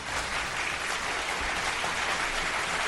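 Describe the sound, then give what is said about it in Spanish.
Steady applause fills the moment as a dense, unbroken wash of clapping. It holds an even loudness from start to finish, with no individual claps standing out. “Efectivamente, aplausos para eso.”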